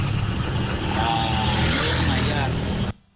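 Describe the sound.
Car driving, heard over a phone call: loud, steady road and engine rumble with a muffled voice mixed in, cutting off abruptly just before the end.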